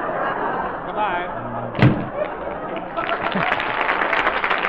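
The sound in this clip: A single sharp door slam cuts through an old 1938 radio comedy show, one loud thud standing out above a steady bed of voices and crowd noise that continues around it.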